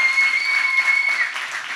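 Applause from an audience in a church during a sermon, dense and steady clapping that continues without a break through the whole moment.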